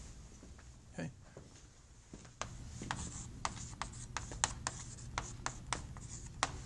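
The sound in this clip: A pen or marker scratches out a hand-drawn plot with a log-scale frequency axis. Many short, crisp strokes come in a steady, uneven rhythm under a person speaking.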